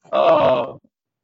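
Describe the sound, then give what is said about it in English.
A woman, worn out and out of breath after walking in, lets out a single sustained groan lasting under a second, loud and alone, trailing off into silence. “She has to catch her breath. Okay, never mind. She's all worn out.”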